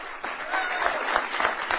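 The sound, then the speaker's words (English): A crowd applauds Senate Democrats as they enter a press conference on Capitol Hill. Dense, steady clapping fills the short stretch. “They cleared the latest hurdle this morning when they won another key test vote, and then they were cheered as they entered a press conference on Capitol Hill.”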